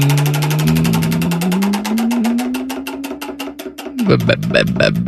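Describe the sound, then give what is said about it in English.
A prize wheel spins with rapid, evenly spaced loud clicks. A droning tone underneath climbs slowly, then drops away near the end while the ticking continues. “Maybe I should spin the prize wheel for a new co-host. It's a long wheel. It's landed on...”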